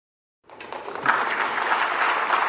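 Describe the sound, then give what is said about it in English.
Applause following the announcement of a new climate finance deal at the COP29 summit in Azerbaijan. Dense, steady clapping starts after a short silence, builds quickly and holds loud and even to the end. “What you are hearing now is the applause that followed the announcement of a new finance deal at COP29 summit in Azerbaijan this weekend.”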